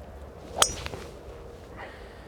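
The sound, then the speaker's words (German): A historic golf club strikes a ball with a single sharp crack, followed by fainter, softer sounds. “Ich greife wieder zum historischen Schläger.”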